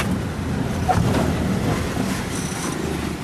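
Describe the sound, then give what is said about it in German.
A car rumbles heavily along a red clay gravel road in Uganda, jolting through countless potholes at walking pace. A continuous, broad, low rumble carries on throughout. “Das Verstauen der Esssachen gestaltet sich schwierig, denn der Wagen rumpelt heftig durch die unzähligen Schlaglöcher.”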